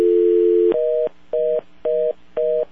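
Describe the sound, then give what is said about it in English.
A telephone dial tone holds steady and loud on a call line, then gives way to four short, evenly spaced touch-tone beeps, with no voices. “Yeah, I hear a dial tone too. I don't know where it's coming from”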